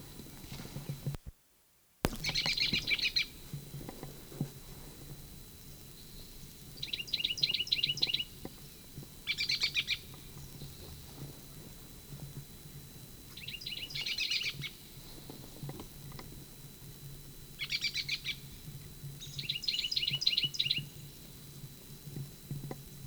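Bird song in short, high, trilled phrases. A handful of bursts are separated by pauses over a faint, low, steady background.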